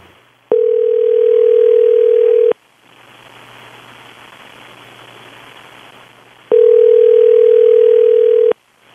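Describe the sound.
Telephone ringing tone heard while placing a call: two long, steady, loud beeps of about two seconds each, separated by a roughly four-second gap filled with soft line hiss.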